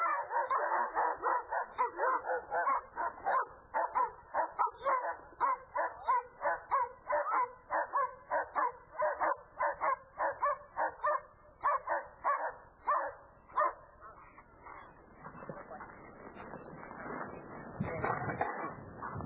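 A dog barks aggressively at a person during a protection-dog training demonstration, letting out many loud, rapid barks in a steady, driving rhythm that later breaks into rougher, noisier scuffling sounds.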